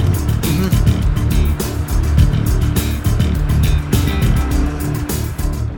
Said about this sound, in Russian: Они едут на Лексусе по городу.